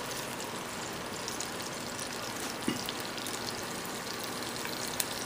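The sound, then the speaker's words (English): Ginger and garlic sizzle in oil heated on high, a steady, even hiss of frying with a faint tap or two, and no voices. “Once our ginger and garlic just fries up just a little bit, it's already going, just like so.”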